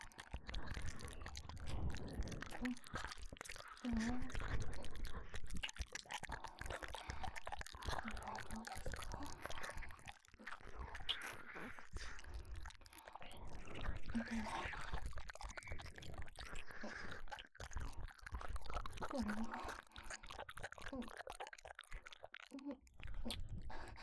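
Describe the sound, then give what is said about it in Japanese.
Wet chewing and biting mouth sounds carry on throughout, soft but steady and close, with a continuous crunchy texture and no clear pauses. “もう少し刺激を与えるために少し噛んでみます。”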